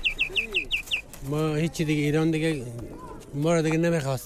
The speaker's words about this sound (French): une petite perruche enfermée dans une minuscule cage